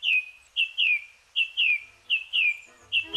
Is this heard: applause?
no